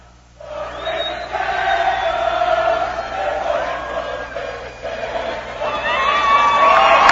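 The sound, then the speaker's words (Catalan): A stadium crowd cheers and roars with fervour as David Beckham walks onto the pitch for his presentation, a dense, steady wall of voices that swells toward the end. “Ha sortit al camp vestit amb un traje marengo, camisa blanca, corbata grisa clara, i la reacció del públic, com et deia, enfervoritzada, em sembla que la podem escoltar.”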